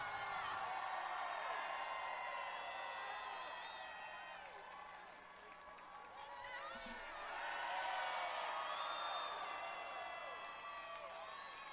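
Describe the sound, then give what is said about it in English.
An appreciative festival crowd at Festival International de Louisiane cheering, whooping and clapping for more: a sustained roar that dips midway and then swells again, laced with many high, sliding whoops. “Very appreciative crowd asking for more.”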